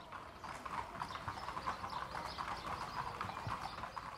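Hooves of a racehorse in training clip-clop in a quick, steady, continuous rhythm of many even beats at a fairly low level, with no other sounds.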